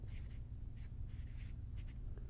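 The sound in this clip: Writing strokes scratch faintly in a few short, separate bursts over a steady low hum.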